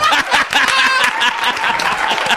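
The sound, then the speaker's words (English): One person clapping their own hands, many quick loud claps in a steady rhythm, with laughing voices over them. “I'm giving myself a standing ovation.”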